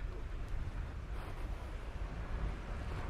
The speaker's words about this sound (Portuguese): Essa brisa gentil que vem de leste pega a gente bem de frente.